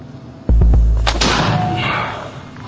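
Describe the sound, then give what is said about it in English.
A big blast from a gun firing a charge at a target: a sudden, loud boom followed by a long, rumbling decay that fades over about two seconds. “So you hit what you're aiming at? Yeah, it's quite a big blast, isn't it?”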